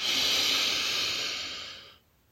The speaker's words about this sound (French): Expire, laisse aller. Inspire l'énergie vibrante des maisons colorées de Richmond.